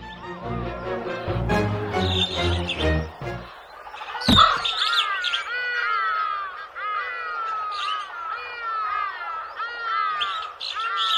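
Crow calling in a cartoon scene by a tree: a busy run of sharp, squawky chirps and calls over steady background noise, with one sharp hit near the middle.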